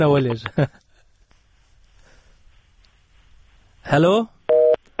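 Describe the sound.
Telephone busy signal on a phone line: two short, steady electronic tone bursts come right after a brief stretch of voices, each tone abrupt at start and end with a clear gap between them.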